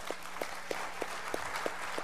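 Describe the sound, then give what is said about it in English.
Soft, steady audience applause for children after their performance in a church Christmas program, with faint clap pulses recurring evenly throughout. “How about another round of applause for our kiddos?”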